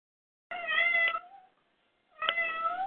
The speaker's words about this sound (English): Can we have cats? What'd the cat say? I think that was a yes. Sorry, that was my cat.